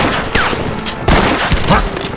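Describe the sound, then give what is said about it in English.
Gunshots from a carbine in a Western gunfight beside a campfire: a few sharp, loud cracks in quick succession, each followed by a short ringing tail. “Falcon, pistol in his left hand and rifle in his right, raised the carbine to his shoulder. The first shot took Billy Matthews, catapulting his body into the campfire.”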